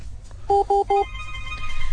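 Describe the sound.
A telephone rings with three short, evenly spaced electronic tone bursts, each a steady two-pitch beep. A low background hum and faint higher tones continue after the rings stop.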